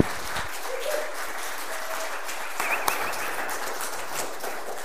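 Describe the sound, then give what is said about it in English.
Audience applause welcoming a speaker to the front, a steady, dense patter of many hands clapping at an even level throughout. “So would you guys give a hand and welcome Kurt Schnabel as he brings the word?”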